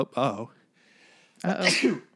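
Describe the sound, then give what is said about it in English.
A single sneeze: a short voiced intake followed by a loud, bright, hissy burst, with a quiet pause between the two parts. “Sneezes.”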